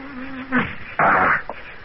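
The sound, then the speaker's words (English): Mosquitoes buzzing: a steady, low droning hum holds for about half a second, then gives way to a couple of louder, rougher noisy bursts before fading to a faint hiss. “Mosquitoes.”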